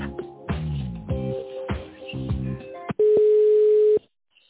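Telephone line tones while a call is transferred: a run of short, bright tonal notes, then one steady beep lasting about a second before the line goes quiet.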